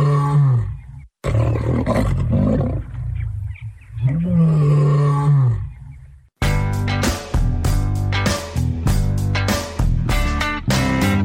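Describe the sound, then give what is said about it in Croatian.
A young lion cub named Simba, found in the hills above Budva in Montenegro, lets out a few loud, deep, groaning roars, each rising and falling in pitch. “Kakav lav, strašan lav. Pa nije baš strašan, ali bit će kad poraste.”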